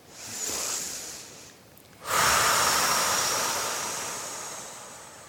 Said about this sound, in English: Take a long breath in and out.